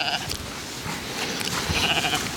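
A young lamb bleats, giving a few thin, wavering cries at the start and near the end over a constant broad rustling noise.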